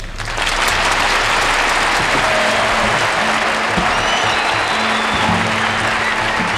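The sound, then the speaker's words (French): A crowd at a 1963 live jazz quartet concert at Carnegie Hall, New York, cheers and applauds. The clapping is loud and dense and stays sustained the whole time, with excited cheering mixed in. “Devant un public surchauffé, il donne des versions électrisantes des tubes de Time Out, apportant un relief et un côté sauvage qu'on n'avait pas forcément perçu sur le disque. Les clameurs de la foule, dignes d'un stade de football, n'y sont pas pour rien.”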